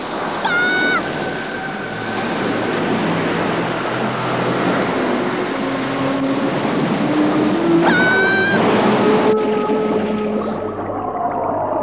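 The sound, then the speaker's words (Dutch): Stormy waves roar as a small rowboat capsizes in a wild sea: a dense, steady rush of noise with high whistling sweeps rising over it, and no talk. “De golven hoger en hoger. En het roeibootje met Henk en Alfred slaat om.”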